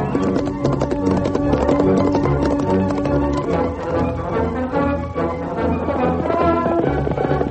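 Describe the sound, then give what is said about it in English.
Hooves of a stallion at a gallop clip-clop in a fast, steady rhythm, a dense, continuous patter of hoofbeats that holds an even loudness throughout. “The mighty stallion raced ahead, traveling steadily at a ground-covering gallop.”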